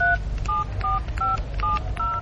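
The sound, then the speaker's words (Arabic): Touch-tone dialing beeps as a mobile phone number is dialed: six short, even tone bursts in a steady rhythm over a low, constant hum. “يلا نتصل ببابي. ما بيردش، ممكن نتصل على موبايل محمود.”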